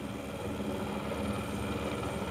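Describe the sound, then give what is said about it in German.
A rescue helicopter lands in the mountains after airlifting a calf for mountain farmers. It gives a faint, steady, low throbbing drone of engine and rotor, heard alone throughout. “Deshalb haben sie den Hubschrauber gerufen.”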